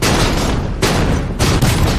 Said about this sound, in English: The surrounding mountains amplify the sound of the guns.